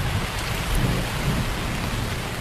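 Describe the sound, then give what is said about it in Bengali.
A thunderstorm with heavy rain: a dense, steady hiss of downpour over a continuous low rumble of thunder, with no voices. “ঝড়ের গর্জন একটু কমেছে বটে, কিন্তু বড় বড় গাছগুলোর পাতায় পাতায় তখনও শোনা যাচ্ছে তার শ্রান্ত দীর্ঘশ্বাস।”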